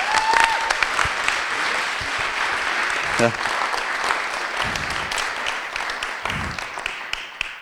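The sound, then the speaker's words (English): Audience applause welcomes a speaker as a sustained, even wash of clapping that holds steady for several seconds. A voice is briefly heard beneath it. “So please put your hands together and welcome Brian Heasley.”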